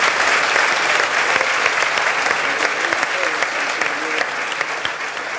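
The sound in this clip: Audience applause at a live Gaelic football panel show in Westport, a loud, thick stream of clapping that holds steady for several seconds and eases slightly toward the end.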